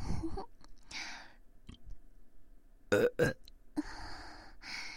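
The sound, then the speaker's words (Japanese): A series of burps, most of them short, with two loud, forceful belches close together in the middle standing out above the quieter ones before and after. “次は大きいゲップ。出ちゃいました。”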